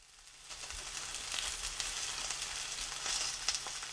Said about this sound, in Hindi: अगर सार्डिन पकने के बाद सुनहरी रंगत की हो गई हो तो उसे पलट दीजिए।